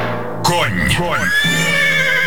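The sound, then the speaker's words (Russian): A horse neighs, an Orlov trotter giving a loud whinny whose harmonic pitch wavers up and down over about two seconds, beginning abruptly and continuing to the end. “Ощути всю силу и прыть орловского рысака.”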